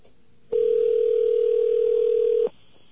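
A telephone dial tone, heard before dialling a test number. One steady, unbroken tone sounds clearly on its own for about two seconds, then stops abruptly.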